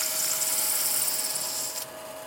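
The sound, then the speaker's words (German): Sandpaper rubs by hand over a brass compass housing, a steady bright hiss that drops away shortly before the end. “Dann nimmt er Schleifpapier in die Hand und verpasst dem Gehäuse damit einen ganz besonderen Schliff.”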